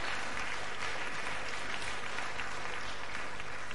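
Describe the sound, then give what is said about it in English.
An audience applauds after a physics demonstration with a continuous roar of many hands clapping. The applause stays at a steady, even loudness from start to finish. “I'd like to thank the applause in name of physics and not myself, of course.”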